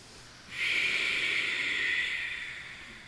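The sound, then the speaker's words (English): Breathing in and out through the nose with lips sealed during a yoga practice: a single long, soft, breathy hiss that swells, stays even, then slowly tapers away. “With your lips sealed, you breathe in and you breathe out to build a fire from within you.”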